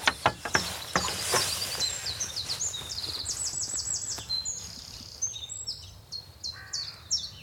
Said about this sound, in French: On a mieux la mésange, ça c'est la charbonnière.